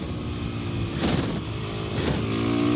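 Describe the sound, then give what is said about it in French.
Engine accelerating on a wet track on rain tyres, a continuous mid-pitched drone with two brief surges of revving over steady road noise. “Et le moteur fait un bruit vraiment sympa.”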